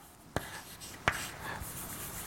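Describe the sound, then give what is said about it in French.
Faint writing while an equation is written out, with quiet strokes and two distinct sharp taps of the writing tool. “Je vais l'écrire”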